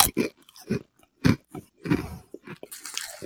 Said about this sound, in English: I expected it to taste like dry pasta just when you say pasta chips, but let's take a bite into here.